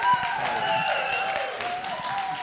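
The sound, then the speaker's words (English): Applause welcomes guests at a church service: dense, steady clapping sustained throughout, with a faint tonal hum underneath. “Let's give them a really warm welcome.”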